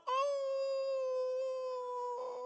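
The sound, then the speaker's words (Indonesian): A dog howls during the call to prayer: one long, steady, moderately loud wail held for the whole clip with little change in pitch and no other sounds. “Tadi waktu suara azan berkumandang, terdengar suara anjing melolong.”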